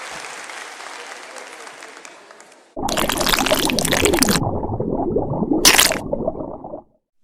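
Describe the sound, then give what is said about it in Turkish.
Applause from an audience after musicians perform: a steady wash of clapping for nearly three seconds. It then gives way abruptly to a louder, different sound with sweeping tones, followed by silence. “Çok teşekkür ederiz. Bütün alkışlarınız.”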